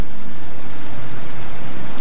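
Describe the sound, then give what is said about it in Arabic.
Heavy rain pouring down, a loud, dense and unbroken hiss of countless drops that stays constant for the whole stretch with no voices. “اسمع دنين المطر نعمتا”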